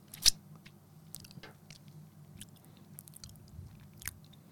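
Close-up chewing and biting of a thick food, faint soft mouth noises with a few sharper crunchy bites scattered through, no talking.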